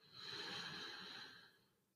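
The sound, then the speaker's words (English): A slow, deep breath drawn in through the nose, heard as a steady breathy hiss that swells quickly, holds for over a second, then tapers off as the inhale ends, alone and without talk. “Let's take one last conscious, slow breath in through the nose all the way up.”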